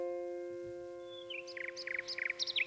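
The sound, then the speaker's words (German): Nightingale song on a woodland walk: a run of bright, high chirping phrases begins about a second in and grows louder, heard over a steady, sustained low drone. “Nachtigall.”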